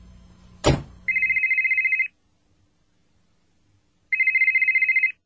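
A brief thump is followed by an electronic telephone ringing in two rapid trilling bursts with a pause between them. The ring is bright and high-pitched.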